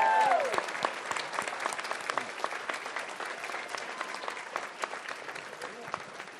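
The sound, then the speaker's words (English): Audience applause at the 25th anniversary banquet of the Washington Council of the Blind: dense, sustained clapping from many hands that starts strong and slowly thins out, with a few louder claps standing out near the end. “Give yourselves a hand.”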